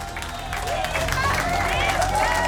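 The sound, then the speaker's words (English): Cheering and clapping rise from a crowd as the DART spacecraft's signal is lost at impact with the asteroid moon Dimorphos, with whooping voices over a continuous wash of applause that swells slightly after the start. “I don't think I've ever cheered for losing a signal with a spacecraft before, but definitely did that time.”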